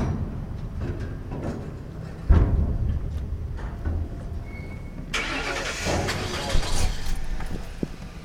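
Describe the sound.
A car drives around McNeil Island with a low, steady engine rumble, a heavy thump partway through, and a brighter rushing noise that joins in over the second half.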